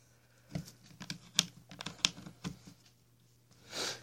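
A guitar pick pries open a tablet's plastic case, giving a quick irregular series of faint, sharp clicks and snaps, then a short soft rustling burst.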